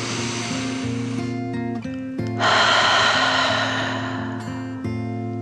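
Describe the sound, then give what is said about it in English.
A slow, deep breath in and out, heard as a swelling breathy hiss that peaks and then fades, over steady, sustained low musical tones. “With another deep dragon breath in and out,”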